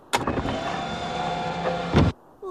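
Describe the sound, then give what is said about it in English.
A car's electric window winds slowly up in a Simpsons scene, a steady motor whir of about two seconds that starts and stops with a soft clunk. “Oh. Marge doesn't not even make eye contact. No. And Homer just wheels the window up. Slowly.”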